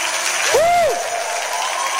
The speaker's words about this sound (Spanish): Levanta un aplauso más fuerte. Porque un aplauso con más fuerza para el Señor esta tarde aquí.